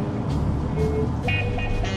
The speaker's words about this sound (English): He is on a quiet, tree-lined motorway.